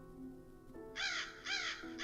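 A crow caws in a garden behind a house. It gives two harsh, quiet caws and a third that is cut off at the end, over faint, steady tones underneath.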